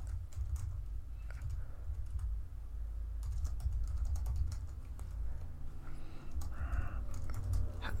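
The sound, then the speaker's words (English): Fingers type on a computer keyboard in quick, irregular bursts of light clicking keystrokes over a low, steady rumble. “Type in maybe that. Type in Chariot of the Gods.”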